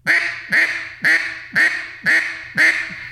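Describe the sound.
Six evenly spaced, nasal quacks from a reed-and-a-half duck call, which gives a single-reed sound, each a loud, raspy burst with a short tail, about half a second apart, with no voices.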